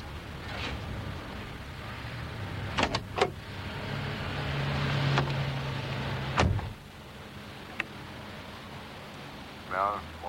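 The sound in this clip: Someone gets into and settles in a car: a few sharp clicks and thumps from the door and seat sound over a steady low rumble, followed by a quieter stretch with a soft rustle.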